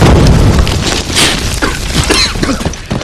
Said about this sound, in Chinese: 炸弹来了怎么不躲？